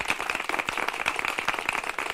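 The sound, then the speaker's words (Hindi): Children applaud a classmate in a school classroom after a science demonstration. The clapping is dense and steady, and the many quick claps blur into a continuous patter. “बच्चों, दीपू के लिए जोरदार तालियां।”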